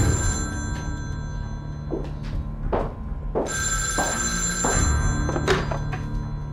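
A telephone ringing with a bright, sustained electric ring in repeated bursts, mixed with a few dull knocks and thumps, no voices.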